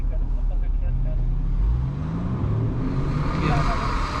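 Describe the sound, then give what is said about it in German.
An SUV's engine roars as a show-off driver pulls away at full throttle late at night, a steady, loud road rumble with the engine note climbing through the middle before settling into a sustained drone. “Wiederholt gibt der Fahrer beim Anfahren Vollgas.”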